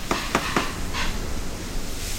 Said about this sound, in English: once your sausage has started letting out some of the fat, starting to color, we're going to add some onions. And I'm also going to add my garlic at this time. And the aromas are starting to really come out. I love the smell of cooking onions and garlic.